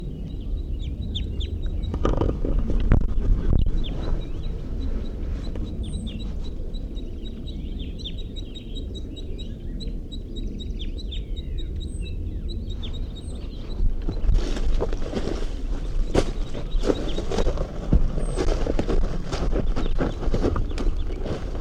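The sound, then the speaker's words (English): Crossbills calling, with the female giving calls and the male giving flight calls: many short, high chip notes in quick repeated series over steady low background noise. “crossbills come to the scene. Pegging calls by the female and flight calls by the male.”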